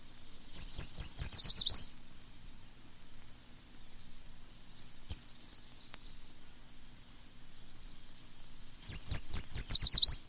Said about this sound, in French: la fauvette jaune,